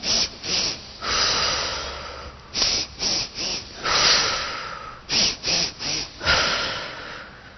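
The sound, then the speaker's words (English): Rapid, sharp nasal sniffs make up a bunny-breath breathing exercise. Rounds of three quick inhales are each followed by a longer, airy exhale, repeated several times. “Here we go. 3 breaths in.”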